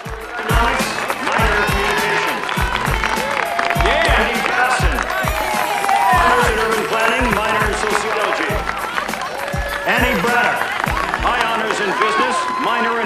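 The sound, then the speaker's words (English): Students applauding at a graduation ceremony: a dense, continuous patter of clapping mixed with many chattering voices, loud and steady throughout. “Students applaud on graduation day.”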